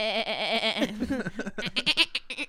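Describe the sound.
A goat bleats in a long, quavering, wavering cry, followed by shorter, broken vocal sounds.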